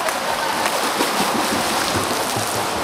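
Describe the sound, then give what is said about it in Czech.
Four children with mild intellectual disabilities kick front-crawl legs in a local swimming pool, making a continuous, even wash of splashing and churning water. “Všechny 4 děti mají lehké mentální postižení a na společné tréninky chodí jednou týdně do místního plaveckého bazénu. A začínáme kraulové nohy. Tak, jeden bazén.”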